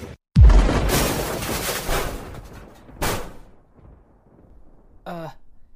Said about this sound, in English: Oh man, is that a missile?